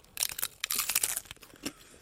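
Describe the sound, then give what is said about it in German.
Someone bites into a crisp shell filled with quark and fresh strawberries, giving many dry, crackling crunches in quick succession. The crunches are moderately loud, with no talk. “Meine Muschel ist fertig befüllt. Du beißt rein. Ich beiß rein.”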